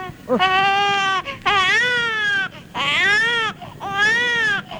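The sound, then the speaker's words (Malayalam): Children crying at night, four long, high-pitched wailing cries separated by brief gaps, loud and heard on their own. “കുട്ടിയോളെ കരച്ചില് രാത്രിയിൽ കേട്ട തീരെ ഉറക്കം വരില്ല, അതുകൊണ്ടാ അടച്ചോ.”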